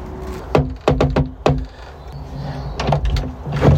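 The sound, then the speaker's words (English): A gate at a hired property is opened: several sharp knocks and clanks come in quick succession, followed by lighter rattling and scraping with a faint creaking tone. “And I'm here now at the place I've hired. Let's get this gate open. There we are.”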